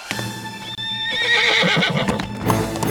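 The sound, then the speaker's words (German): A horse whinnies loudly as its rider sets off at night, the long neigh accompanied by clip-clop hoofbeats and growing busier and louder toward the end. “Noch in der Nacht reitet Grünix los.”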